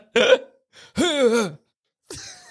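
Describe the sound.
A voice imitates an anime character's shocked gasp with three short, strained vocal bursts; the middle burst is the longest and its pitch rises and then falls.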